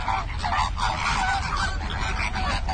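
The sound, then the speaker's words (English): Wild American flamingos (Phoenicopterus ruber) give honking calls, a dense, overlapping chorus of nasal, goose-like honks that stays loud and continuous throughout. “The bird's Latin name is Phenacopterus ruber, and if you found them in the wild, they might sound like this.”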